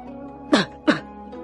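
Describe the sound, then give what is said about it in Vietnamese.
Two short, dry coughs come in quick succession, each sharp and abrupt against a quiet background, with no talk. “Lăng Phong ho khan thầm suy tính.”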